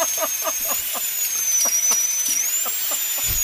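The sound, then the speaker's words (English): Dental drill whining at a steady, piercing high pitch that wavers slightly, running continuously with faint clicking and scraping underneath. “this is the sound of a dental drill.”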